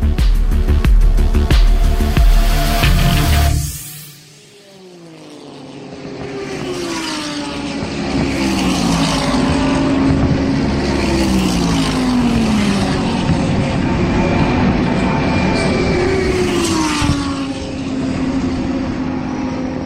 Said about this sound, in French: Les sons que vous venez d'entendre ont été captés dans la nuit du 25 au 26 janvier 2020 vers la mi-course des 24 heures de Daytona, première épreuve du championnat IMSA WeatherTech pour voitures de sport